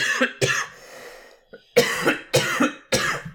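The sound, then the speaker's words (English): A person coughs harshly and repeatedly: a short burst, a brief pause, then a longer run of several loud coughs in quick succession. “Why am I coughing so much?”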